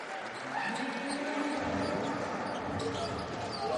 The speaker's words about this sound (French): Il n'y a plus que deux possessions d'écart. Et reprise de dribble.